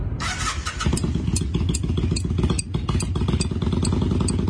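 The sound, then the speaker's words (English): Two metal wrenches are banged together, giving many sharp, rhythmic metallic clicks over the steady rumble of a running motorcycle engine. “She's banging two wrenches behind her back”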